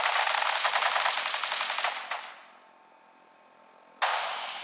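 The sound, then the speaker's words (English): Rapid machine gun fire as police open fire: a dense, loud burst of shots for about two seconds that tails off into a low hiss, then an abrupt second burst breaking in near the end. “Stop or we'll shoot. Men, open fire.”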